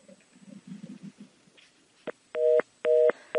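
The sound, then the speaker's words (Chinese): A phone call cut off by an accidental hang-up: a low murmur, then a click and repeated loud two-tone beeps of a disconnect signal, each burst separated by a short gap. “他是否想调音量？ 不小心就按到挂断了。”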